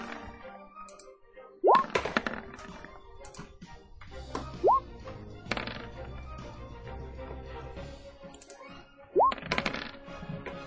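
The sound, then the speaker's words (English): Three Discord notification sounds pop up, each a brief bright blip rising in pitch, spaced irregularly across ten seconds, with faint clicks in between. “Holy Discord notifications.”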